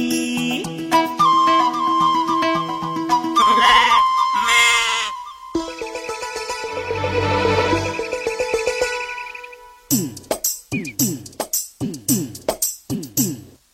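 Lambs bleating with music behind them. Sustained tones give way to many short, quavering bleats in quick succession toward the end.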